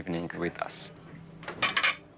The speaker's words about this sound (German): Wir decken besonders schön ein. Spezielle Teller, elegante Servietten, guter Wein.